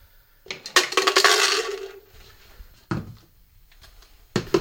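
Protein powder and dietary supplements being mixed, with a burst of clattering, clinking containers and utensils followed by a few sharp knocks and clinks.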